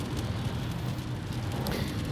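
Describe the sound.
A car driving on the road, giving a steady, even low rumble of engine and tyre noise that holds constant throughout.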